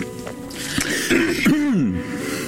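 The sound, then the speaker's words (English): A person clears their throat with a few rough, raspy bursts, then ends in a short voiced sound that slides downward in pitch. “figured that was when I should clear my throat.”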